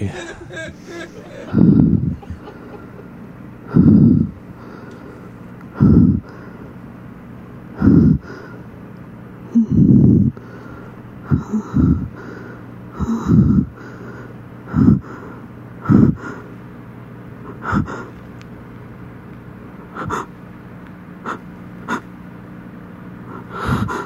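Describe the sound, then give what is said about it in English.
A woman snorting and gasping heavily, in many loud, breathy bursts that come at an irregular rhythm, with short pauses between them. “She's snorting over there.”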